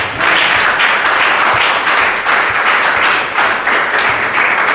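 A church audience applauds the Lord during a service: loud, dense and steady clapping that fills the whole clip without a break.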